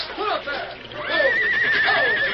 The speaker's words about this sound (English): The horses. The current's carrying them away from the wagon.